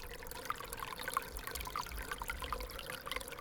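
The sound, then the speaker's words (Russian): Spring meltwater from thawing snow runs in a small stream, a faint, steady trickle and gurgle with light bright drips scattered throughout. “А попробуйте угадать этот звук. Мы часто слышим его весной, когда начинает таять снег.”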